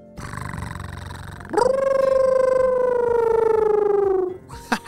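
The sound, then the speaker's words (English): A voice imitates an invented wolf cat, starting with a low, buzzing purr-like rattle, then rising into a sustained, wavering howl that slowly falls in pitch before breaking off. “It purrs like a cat, and then howls like a wolf. And then you combine the two to make a wolf cat sound.”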